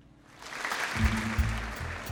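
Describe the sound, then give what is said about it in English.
Polite audience applause after a stage show, swelling from near quiet into a moderate, steady patter of clapping that stays fairly soft. “Polite applause.”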